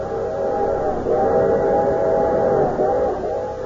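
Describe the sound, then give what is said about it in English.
A railroad train whistle sounds a sustained, chord-like blast that swells and dips several times over a low rumble. “What friendly, familiar sound comes to your mind when you think of the railroads that serve your community? Is it something like this?”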